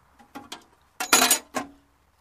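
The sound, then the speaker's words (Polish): Standard metal wrenches are tossed in together, giving a few bright metallic clinks and clatters. The middle burst is the loudest, and no talk is heard. “Tu masz 12 dychę. To standardowe klucze, więc ci wrzucam.”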